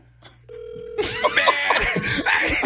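A telephone call rings unanswered: a single steady tone opens, then a brighter, warbling ring takes over and continues at an even level to the end.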